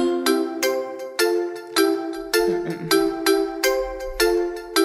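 A telephone rings with an incoming call, a loud electronic ringtone of bright, chiming tones repeated in a steady, rapid pattern through the whole stretch, with no voices.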